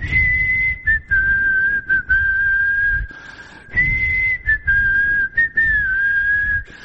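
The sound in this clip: A person whistles with the mouth, a clear, wavering tone that slides slightly up and down, broken into several short phrases by brief pauses, heard alone without talk.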